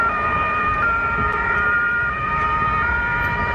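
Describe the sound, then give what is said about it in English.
An ambulance siren sounds at the Magdeburg Christmas market in Germany after a car drove into shoppers. The loud, sustained, steady high siren tones play over a constant rumble of road traffic. “That's the sound of an ambulance on site near the Magdeburg Christmas market in Germany after a car drove into shoppers”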